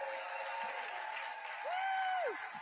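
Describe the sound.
Applause from a live show audience, a dense steady wash of clapping that lasts throughout, with one sustained whooping cheer rising above it partway through.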